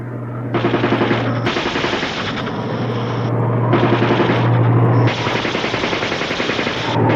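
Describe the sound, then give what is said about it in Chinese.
Machine gun firing in a wartime battle scene: several long, loud rattling bursts of rapid shots, separated by brief pauses, with no voices heard. “机枪准备射击。你们瞄准哪儿？对准他们射击。”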